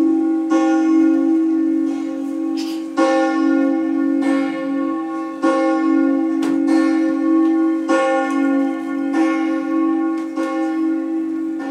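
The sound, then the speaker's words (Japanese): A church tower bell tolls in slow, repeated strokes, each loud, rich strike blooming into a long, humming resonance that overlaps the next, steady throughout with no voices. “鐘の音は町の外までも響き渡りました。 教会の鐘だ とペドロが言うと”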